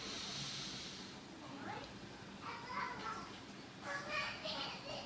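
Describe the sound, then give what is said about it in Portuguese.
Deep breathing is demonstrated in slow, faint, hissing breaths drawn and released, with a few long airy swells rising out of a quiet background. “Faz assim, ó. Respirar faz bem, tá vendo? Tem gente que podia respirar assim, ó.”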